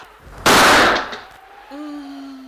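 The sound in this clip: A single loud gunshot in a radio drama: a sharp, harsh blast whose long tail fades over nearly a second, followed by a quieter sustained tone.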